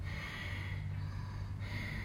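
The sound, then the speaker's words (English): A voice imitates forceful, unsustainable breathing as heard in a yoga class: harsh, rushing breath noise, fairly loud and steady, with a brief dip partway through. “sometimes in a yoga class you might hear someone breathing like,”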